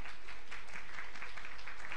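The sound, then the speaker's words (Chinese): Audience applause at a church child dedication ceremony, dense and steady clapping that fills the whole moment without pause, at a moderate level. “我们先给掌声”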